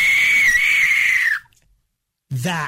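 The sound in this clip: A person's voice imitates a velociraptor with a loud, sustained, high-pitched screech lasting over a second. A brief silence follows before the voice speaks again.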